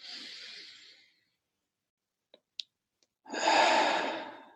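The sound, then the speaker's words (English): Deep breaths in and out close a meditation practice. One long, airy breath fades out, a quiet pause follows with a couple of faint clicks, and then a second louder, fuller breath swells and tapers off. “Let us close this practice with three deep breaths together. Breathing in and out. Once more.”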